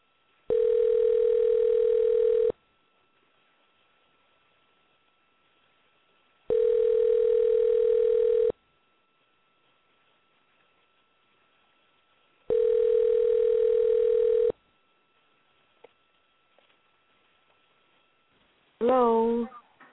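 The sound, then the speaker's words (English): A telephone ringback tone sounds three times, each a steady mid-pitched hum lasting about two seconds and separated by silent gaps of around four seconds. A voice answers briefly at the end. “Let's see if we can get her tonight. Dial this number. See if they're available.”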